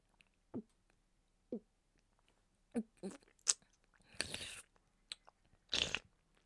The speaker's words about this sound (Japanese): 先ほどの濃厚プリプリラーメンいただきますね。